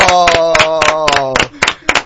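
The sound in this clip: A group claps in quick, even rhythm to reward a correct answer in a colour-guessing game. Sharp claps repeat steadily under a talking voice and thin out toward the end.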